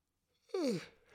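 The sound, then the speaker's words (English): A person yawns quietly with a short voiced sound that slides downward in pitch, then trails off into a soft breathy tail. “I'm yawning in my own podcast”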